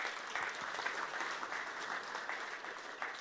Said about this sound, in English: Give these guys a huge hand.